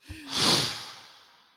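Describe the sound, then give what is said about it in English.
A slow, deep breath taken during a guided breathing pause, heard alone as one airy, breathy rush that swells quickly, peaks, and then tapers off gradually into quiet. “just take a few seconds and take a deep breath with us”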